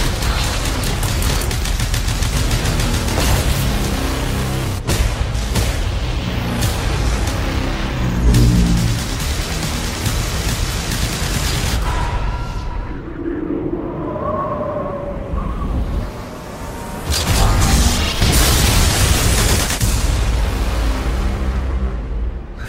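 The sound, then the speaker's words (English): Gunfire, explosions and roaring engines from the Total Recall science fiction thriller trailer. The sound is loud and dense, with rapid bursts and booms, eases into a quieter tonal stretch midway, then surges back to full intensity. “That was the trailer for Total Recall.”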